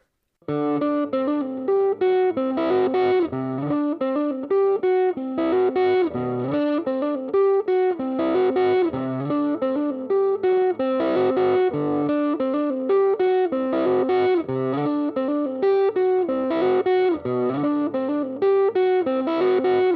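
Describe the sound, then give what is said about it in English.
Overdriven electric guitar through an amp-in-a-box overdrive pedal with the gain cranked for breakup, playing a continuous run of gritty, distorted notes and chords for about twenty seconds with no talking. “let's take that gain knob, let's crank it a little bit, get a little breakup on there so you can hear how it sounds being used as an actual, you know, overdrive.”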